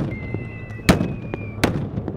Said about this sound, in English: Today's drill, reacting to a barrage of indirect fire.